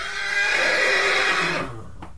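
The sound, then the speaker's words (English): A single horse neigh used as a sound effect, portraying a horse that dies mid-whinny: one long, loud, strained cry lasting about two seconds, holding steady before thinning out and dwindling to quiet at the end, with no other sounds. “It's the sound of a horse neighing and dying while it's neighing.”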